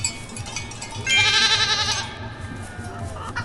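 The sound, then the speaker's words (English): A goat bleats once in a video game where the player targets ducks and goats. The loud, wavering bleat lasts about a second over a steady background of game sounds. “There's a goat.”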